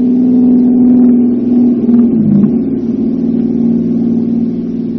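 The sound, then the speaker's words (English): Car engine droning steadily at a mid pitch as a vehicle drives fast, the tone dipping briefly near the middle before it holds level again. The sound stays loud throughout, with no voices. “They were going too fast to see us. All right, Sing. But as soon as it gets light, this place won't be healthy. They were driving west. Is that where the other cars you saw were headed?”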